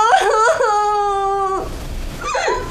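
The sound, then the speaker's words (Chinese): A man crying and wailing loudly: one long, sustained sobbing wail that ends abruptly, then after a brief break a shorter sob. “别哭了，俺还没死呢啊，等俺死了你再哭丧吧。”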